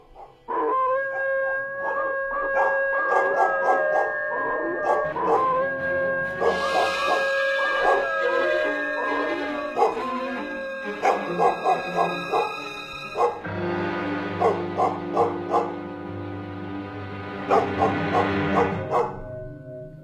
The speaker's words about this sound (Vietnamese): Lẫn trong tiếng gió là tiếng của bầy chó ở trong làng cứ sủa lên ầm ầm, rồi nó chu lên kinh người.